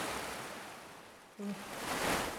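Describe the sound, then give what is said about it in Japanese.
Ocean waves break in a soft, steady wash of surf noise. The sound dips briefly near the middle, then swells again toward the end. “また来るよ、また来る。波がどんどん大きくなって、ほら大きな波が来た。今までで一番大きな波。”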